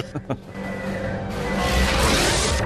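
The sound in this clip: A Stargate shield is lowered with a sustained, bright electronic whoosh that builds in loudness and hiss. It follows a brief voice at the start.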